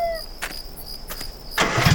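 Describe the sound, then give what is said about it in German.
A car engine starting in a wild, remote spot near dusk: a couple of brief cranking bursts, then a louder low rumble building at the end over faint background hiss. “Achtung, der Wagen fährt wieder los. Oh, verdammt. Oh, weg ist er.”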